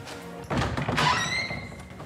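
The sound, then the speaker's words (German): A door into an exhibition room opens with a soft thunk, followed by a brief rising creak or squeal as it swings, alone and moderately quiet. “Jetzt öffne ich mal die Tür zu unserem Ausstellungsraum.”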